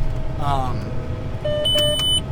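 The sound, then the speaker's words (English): Beeping from a tractor's auto steer system while planting corn into a thick rye cover crop: short, steady electronic tones over a continuous engine rumble, with a voice talking. “we've been getting the auto steer beeping at us a lot”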